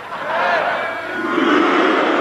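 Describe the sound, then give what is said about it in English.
A theatre audience booing and hissing together, a sustained wall of many voices that swells, dips briefly midway, then rises again louder toward the end. “Okay, we're going to have one go with everybody booing and hissing.”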